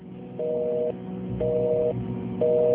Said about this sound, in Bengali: নুসরাতের সাথে ফোনটা ডিসকানেক্ট হয়েছে